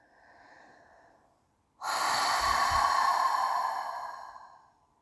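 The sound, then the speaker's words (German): A deep breath drawn in through the nose and let out through the mouth: a soft, quiet inhale, a brief pause, then a longer, louder, breathy exhale that fades away. “Und dann nimm einen tiefen Atemzug, wenn es geht, durch die Nase und atme durch den Mund tief aus.”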